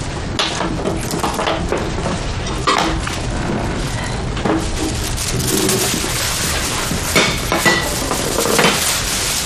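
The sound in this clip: Plates and dishes are fetched and handled at home before a snack of fried skewers, with continuous loud clattering, clinking and scraping of crockery and utensils throughout and no talk.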